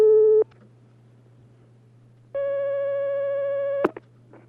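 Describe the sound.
Telephone line tones as a call comes in on a phone-in question line: a short steady tone, a pause over low line hum, then a longer tone ending in a sharp click. No voices are heard.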